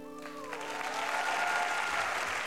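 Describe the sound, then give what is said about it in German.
Audience applause follows a song in a children's radio play. Clapping swells into a dense, steady patter as a lingering musical tone fades away beneath it. “Da gibt es viel Beifall.”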